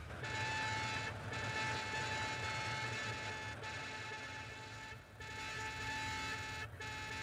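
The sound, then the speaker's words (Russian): Horns from sixty vehicles sound together as one sustained, fairly high, thin tone. It holds steady with a few brief dips and is not especially loud. “И их гудок звучит вот так.”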